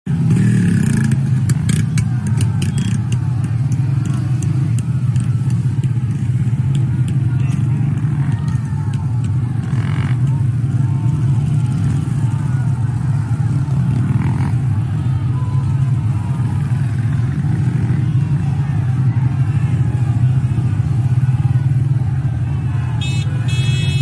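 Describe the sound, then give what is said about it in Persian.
Motorcycles ride through a street protest in Khash, Sistan and Baluchestan, Iran, making a loud, continuous engine drone that stays at a steady level with no breaks. “مردم خاش یگان موتوری هم دارن برای خودشون جلو میچرخن”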